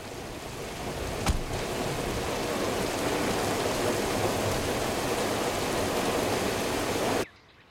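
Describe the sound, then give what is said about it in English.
Steady heavy rain falls on and around a car, a dense continuous hiss with one sharp tick early on, cutting off abruptly just before the end. “sinks into the seat while the rain continues.”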